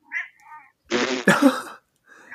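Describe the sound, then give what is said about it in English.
A cat meows a few times. A faint first call is followed by two louder, drawn-out meows in quick succession and a softer one at the end. “Sassy cat. Oh, that's my cat.”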